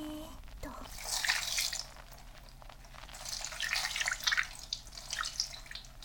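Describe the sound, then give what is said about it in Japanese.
Hot water poured to rinse hair, heard as a steady wash of splashing, trickling water that swells and eases in uneven surges throughout, with no talking over it. “はい、それではお湯を流しますね。”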